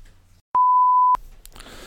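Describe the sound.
A doorbell rings as a single electronic beep: one loud, steady, pure mid-high tone lasting just over half a second, followed by faint noise.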